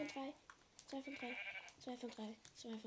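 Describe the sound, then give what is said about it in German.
Sheep bleating in a video game: a few short, wavering bleats, faint overall, with a man talking over them. “Leute, endlich, wir haben zwei Schafe.”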